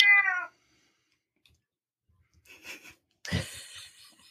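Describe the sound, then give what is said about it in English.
A cat meows a few times. A short harmonic call is followed, after a pause, by two breathy, rougher calls. All are faint and separated by silence. “Gotta love that cat. Yeah. He wants to give his input.”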